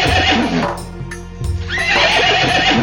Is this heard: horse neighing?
yes